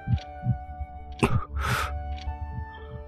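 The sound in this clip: A fast heartbeat pulses in many quick, low thumps, with a steady tonal drone sustained beneath the beats.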